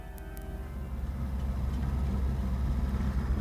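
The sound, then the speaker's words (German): Taxi car driving: a steady, low engine rumble with road noise that holds at an even level throughout, with no voices. “Wir hätten nicht mit dem Taxi nach Hause zu fahren brauchen”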